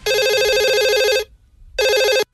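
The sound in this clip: A telephone rings for an incoming call with two loud electronic trills, the first longer, separated by a short pause, and no voices.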